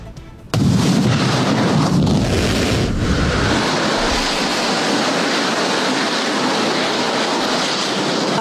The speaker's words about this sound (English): That, of course, was yesterday when SpaceX was trying to launch its Starship rocket. It says it's going to try and do it again in a few days after aborting